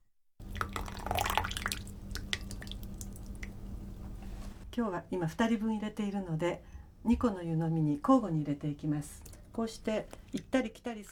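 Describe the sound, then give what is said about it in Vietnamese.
Tea poured from a teapot into small cups: a continuous trickle of liquid for about four seconds, followed by a person talking over faint splashes. “Đậy nắp ấm trà và để cho trà ngấm khoảng 1 phút trước khi đổ ra những tách trà nhỏ để thưởng thức.”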